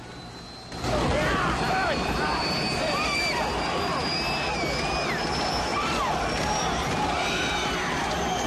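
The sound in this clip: Helicopter engine noise as the aircraft sits among a crowd at an outdoor rock concert. After a brief quieter opening, a loud, steady mechanical roar takes over and holds, with crowd voices mixed in throughout.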